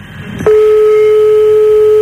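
Telephone ringback tone on an outgoing call: a brief rush of noise, then a loud, steady single-pitched tone starts abruptly and holds unbroken to the end.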